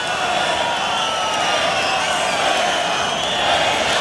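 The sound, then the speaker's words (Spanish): A bullring crowd protests during a bullfight: a loud, dense roar of many voices that stays steady throughout, with no clear break or pause. “El público está muy enfadado y protestando las condiciones de la lidia de este toro.”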